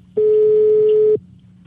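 A single steady telephone line tone sounds as a call is placed to a police station, a clean mid-pitched beep lasting about a second before cutting off to near silence.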